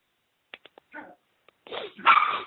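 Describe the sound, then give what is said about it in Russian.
A dog barking: a few short, quiet yips come first, then louder, rougher barks with whimpering tones that end in a sustained burst. “Собака.”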